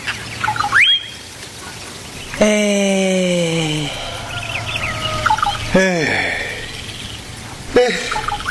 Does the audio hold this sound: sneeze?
no